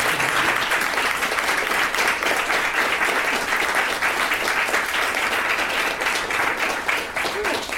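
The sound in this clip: A loud, sustained round of audience applause welcomes a guest onto a stage. The clapping stays thick and even throughout.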